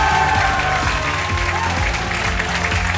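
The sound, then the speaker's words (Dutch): A studio audience at a Brussels quiz show applauds with dense, steady clapping that stays loud and even across the whole stretch. “Goed, goede klappers heb ik graag.”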